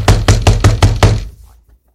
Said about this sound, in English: knocked again, this time more vigorously.